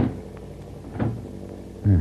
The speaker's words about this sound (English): I am very sorry to leave such pleasant company, but I would feel safer if I locked myself behind this door.